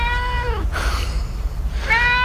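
A cat gives two loud meows. The first falls in pitch at its end, and the second starts again after a short, breathy pause.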